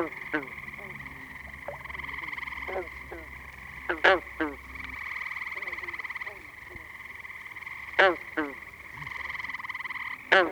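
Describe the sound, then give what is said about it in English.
Green frogs croak in a chorus of many short, twangy calls scattered at irregular intervals, a few standing out louder, over a steady high-pitched droning background. “Green frog chorus is now starting.”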